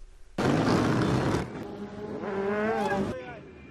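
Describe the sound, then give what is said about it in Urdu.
Motorcycles ride on city streets in Baghdad on a Friday afternoon, exhaust smoking. A loud, roaring burst of engine noise drops away, then a single engine whines with a wavering pitch before cutting off. “یہ جمعے کا دن اور دوپہر کا وقت ہے اور motor cycles چلانے کے شوقین اس وقت سڑکوں پر نظر آ رہے ہیں۔ موٹر سائیکلوں سے دھواں نکل رہا ہے”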